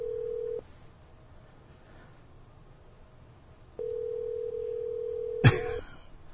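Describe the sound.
A telephone call rings before going to voicemail. A quiet ringback tone cuts off near the start, and after a pause a longer steady tone sounds, broken near its end by a sharp click as the line picks up.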